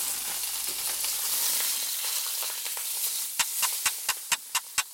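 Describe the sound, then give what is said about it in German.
Toulouse sausages or Mettwurst sausages fry in a pan with a steady crackling sizzle, followed near the end by a quick run of sharp, evenly spaced taps. “Ja, die Saucisse de Toulouse. Oder normale Mettwürstchen. Das werden wir auch jetzt braten.”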